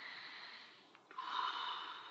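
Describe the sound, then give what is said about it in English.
A deep breath drawn in by a person during a guided release exercise: a steady breathy rush of air that dips briefly partway through, then swells louder and fuller. “Take a breath.”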